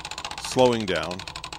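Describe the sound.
Fast, even ticking of a prize wheel spinning, the rapid clicks running steadily through the whole stretch while a voice sounds briefly over the middle.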